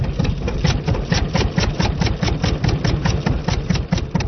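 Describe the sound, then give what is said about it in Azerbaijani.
A petrol-powered electricity generator in Lankaran drones steadily with a regular throbbing pulse, a loud, even engine rumble that continues throughout with no talk. “Bircə, işıq əldə eləmək üçün benzinlə işə salınan generatorların səsindən başqa.”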